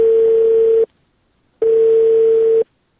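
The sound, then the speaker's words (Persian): A telephone line tone after a call is cut off: two long, steady beeps at one fixed pitch, separated by a short silence, with no voices. “تلفون قطع شد.”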